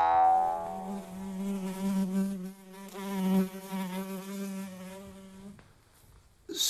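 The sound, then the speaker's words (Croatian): A housefly buzzes around a person's face in a loud, droning hum with rich harmonics. The hum swells and fades as the fly moves, then stops abruptly near the end, followed by a brief rustle. “Možete li mi, molim vas, maknuti muhu s lica?”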